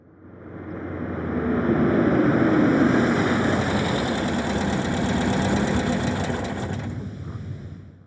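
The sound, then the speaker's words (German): A silver Porsche idles at a door, its engine giving a steady, fairly loud rumble that swells in, holds evenly for several seconds and then fades at the end. “Pünktlich hält Gerds silberner Porsche vor der Tür.”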